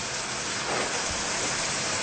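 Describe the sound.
Shrimp and bread dipped in batter fry in boiling oil, giving a dense, steady crackling sizzle that hisses evenly throughout without talk.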